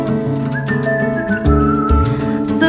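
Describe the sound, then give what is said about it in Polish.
A whistled melody within a song, a clear high sustained tone over an instrumental backing, with a few held and gliding notes. “Gwiżdżę sobie”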